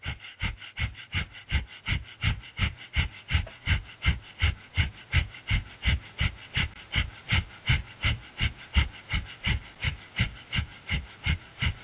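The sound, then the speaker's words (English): Breath of fire, a rapid rhythmic breathing exercise, done while bouncing the left knee: many quick, forceful, evenly spaced breaths pulse at a fast steady pace throughout, with no talking. “We're going to do breath of fire for 1 minute.”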